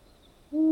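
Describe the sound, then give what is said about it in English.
A long-eared owl gives a single low, hollow hoot at the very end, steady in pitch and clear after near-silence. “The long-eared owl has one of the most sober sounds among birds, like the sound you hear when blowing an empty bottle's top.”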